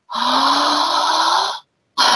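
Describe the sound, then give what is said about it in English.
Deep exhale through the mouth during a guided breathing exercise: one long, loud, breathy rush lasting about one and a half seconds with a faint rising hum, then the start of another breath. “Take a big exhale together. In-mouth, out-mouth.”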